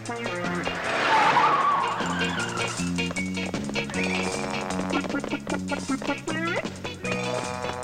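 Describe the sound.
A passenger car drives out of an archway, a brief rushing engine swell and tire squeal rising over loud, steady music that continues throughout.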